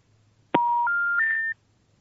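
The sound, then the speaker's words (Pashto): Telephone disconnect tone after a call is cut off: three clean electronic beeps stepping upward in pitch, played back to back and clear against near silence. “د تلیفون کرخه یې پرې شوله.”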